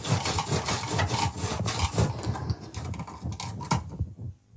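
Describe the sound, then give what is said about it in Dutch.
Knife pressed hard through a firm fennel bulb: many repeated rasping, crunchy strokes in an uneven rhythm, steady in loudness, then tapering off and falling quiet at the end. “Die venkel is vrij hard. Dus moet ik echt zeer goed aanduwen.”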